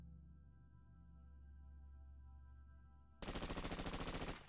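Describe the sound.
Small-arms gunfire sound effect: after a steady low hum, one rapid burst of many shots rattles out in about a second, loud and machine-gun-like.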